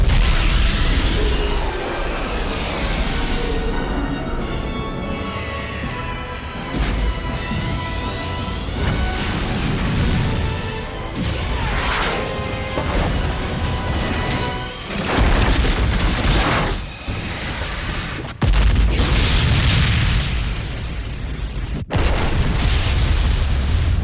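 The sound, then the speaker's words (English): Artillery batteries fire on a station in a rapid series of heavy booming explosions, with deep rumbles, crashing bursts and sudden sharp cuts between loud blasts throughout. “Fire! All batteries fire! Blast that station to hell!”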